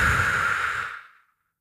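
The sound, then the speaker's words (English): A single long exhale of breath, a soft airy whoosh like a deep sigh that holds steady for about a second and then fades away into silence. “So I'm going to breathe in through my nose. Hold it for a moment and then exhale.”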